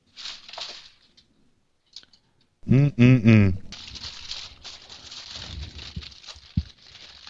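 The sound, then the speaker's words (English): Aluminium foil crinkles and rustles as it is wrapped tightly around food while cooking, a steady papery crackle running for several seconds after a short voiced sound. “So now I'm going to wrap it up with foil.”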